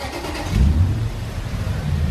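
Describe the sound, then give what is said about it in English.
Engine rumble of cars and trucks working through the open bays of a vehicle inspection station in Medford, Oregon. The low, steady motor noise swells briefly near the start, then continues at an even level. “At the vehicle inspection station in Medford, cars and trucks work their way through the open bays.”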